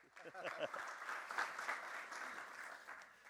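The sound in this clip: Audience applause welcoming a pastor at a church gathering: a brief voice, then faint, steady clapping from many hands that carries on evenly.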